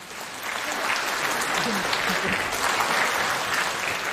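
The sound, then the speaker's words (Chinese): Audience applause welcomes a comedy duo onto the stage. The clapping is dense and even, holding at a steady loud level for about four seconds without a break. “谢谢大家热情的掌声。”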